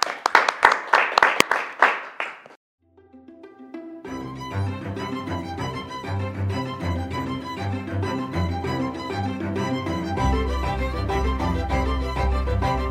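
Audience applause welcoming a guest at an evening theology interview event, dense clapping for a couple of seconds that quickly fades to silence, after which music starts and continues.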